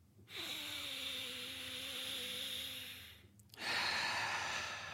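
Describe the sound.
A long breath drawn in through the nose during a guided breathing exercise, about three seconds of steady hissing airflow with a faint whistling tone. A brief pause follows, then another, louder rush of breath.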